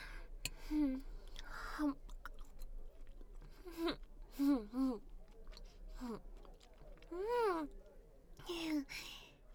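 Thick-cut bacon being chewed quietly, with soft wet smacks and clicks mixed with several low, drawn-out voiced hums and moans of enjoyment.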